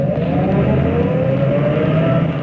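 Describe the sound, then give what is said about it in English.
A car engine drones steadily as a car approaches and turns up a driveway. The low, even hum holds at a constant level for the whole clip, with no voices. “There's a car. As I see it. It's going to turn up our drive.”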